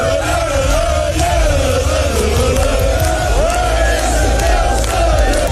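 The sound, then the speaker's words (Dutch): Football fans loudly cheer, shout and roar as their team bus arrives amid lit flares after the club secured its top-division place; a dense, continuous crowd din of many voices stays loud and unbroken throughout. “De spelersbus van Telstar is met een boel gejuich en fakkels ontvangen.”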